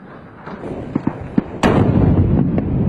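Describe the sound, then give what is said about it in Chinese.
Artillery fire during a military exercise, with a few sharp bangs followed by a sudden loud blast that turns into a sustained, dense roar of heavy firing until the end. “火炮集群首先对敌前沿指挥观察所和暴露步兵进行火力压制，装甲集群持续攻击敌前沿地堡群。”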